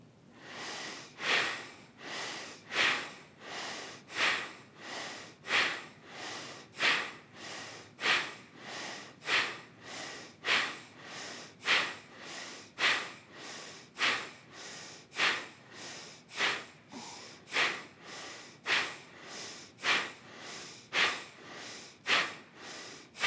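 Bellows breathing during a short breath-meditation exercise: many rapid, forceful breaths pushed hard through the nose in an even, fast rhythm, each a sharp, loud, airy snort-like burst, roughly one per second, with no talking.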